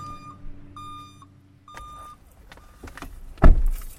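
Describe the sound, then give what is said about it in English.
Car chime beeps sound three times in a row, followed by the whirring hum of a power window motor and a single heavy thump near the end. “So we start a drive through Councilman Palencik's district.”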